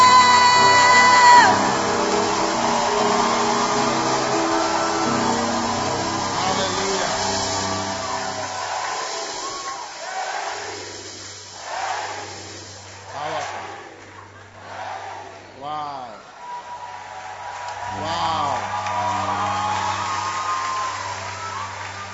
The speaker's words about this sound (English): Make some noise as we welcome Bishop Daniel.